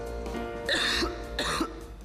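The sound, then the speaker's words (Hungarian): A person coughs twice, with two harsh, breathy bursts less than a second apart over a low, steady background hum. “A köhögés sosem jön jókor, de legyen szó száraz, irritáló vagy makacs, hurutos köhögésről, a Robitussin köhögés csillapító és köptető termékei hatékonyan segítenek leküzdeni.”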